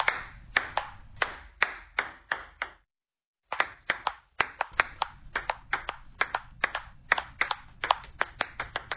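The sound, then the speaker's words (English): A table tennis ball is batted back and forth in a rally at a 24-hour ping pong marathon. Sharp hollow clicks come in a quick, steady rhythm, with a brief pause before play resumes. “Some call it table tennis. I prefer ping pong myself. And this is the sound that will be reverberating through Wodonga”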